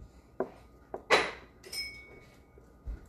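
A tiny spoon clinks against a small bowl of sugar. A few faint, short taps are spaced apart, with one brighter, longer scraping clink among them, and no voices are heard.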